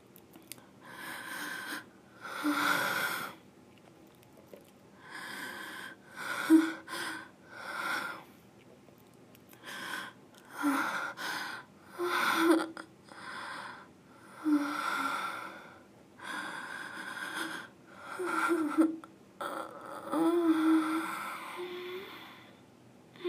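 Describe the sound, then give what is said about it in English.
Slow, relaxed breathing with long, unhurried breaths in and out at an even pace. The breaths are soft, with occasional sighing exhales and faint voiced tones. “Now, relax and breathe with me.”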